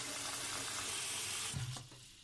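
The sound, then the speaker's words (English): Water pours into a big pot in a steady, broad rushing stream that shifts and tapers off near the end. “I don't have an ocean, but I do have a really big pot I can fill up.”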